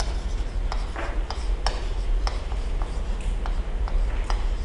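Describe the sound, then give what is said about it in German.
A name being written by hand during a lecture: soft, scratchy pen strokes and small taps at irregular intervals, fairly quiet over a low steady hum. “Also ich schreibe den Namen.”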